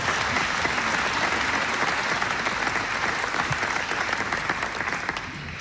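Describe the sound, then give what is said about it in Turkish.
Audience applause at a Turkish folk song concert with a choir and soloists: dense, continuous clapping holding loud and steady throughout, easing slightly near the end. “Bir kez daha alkışlıyoruz.”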